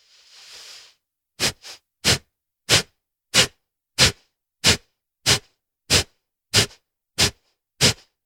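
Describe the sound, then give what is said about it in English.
Sharp, forceful nasal exhales from a belly-breathing exercise: a softer, longer breath first, then about a dozen quick puffs in a steady, even rhythm with brief silences between them. “And it sounds like this.”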